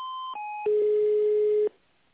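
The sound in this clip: Electronic telephone line tones play while a call is being transferred: two short steady beeps, the second slightly lower, then a lower, louder steady tone that holds for about a second before cutting off into near silence.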